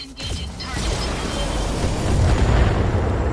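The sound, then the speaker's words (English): Weapons fire in a mech combat video game, a stray shot heard as a steady, dense booming rumble that grows slightly louder toward the end. “Oh, stray shot went towards the Shadowhawk instead.”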